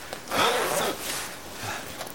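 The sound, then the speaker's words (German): A zipper and rustling clothes as someone undresses before ice bathing: a brief zip, then softer cloth noise, all fairly faint. “Okay, also ich ziehe mich jetzt aus und dann geht es los mit dem Eisbaden.”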